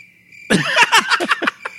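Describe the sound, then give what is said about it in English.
Crickets chirp in a steady high trill, followed by a burst of several loud, rapid chirps that trail off into quieter pulses. “Those crickets. There's a lot of them.”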